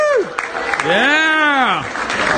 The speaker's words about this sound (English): So big hand and a big applause for them.